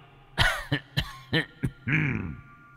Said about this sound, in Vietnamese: Nói xong, ở ngoài cửa truyền đến âm thanh ho sù sụ, là ho rất kịch liệt.